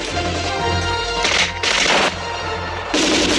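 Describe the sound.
Three loud bursts of gunfire shooting at troopers pinned down behind a train, each a dense, harsh crackle rising out of a continuous low, rumbling background.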